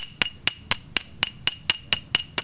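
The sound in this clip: Two stoneware pottery shards are knocked gently together, giving about ten sharp, bright clinks with a high ringing tone. The strikes come evenly spaced in a steady rhythm, each one short and crisp, with no voices.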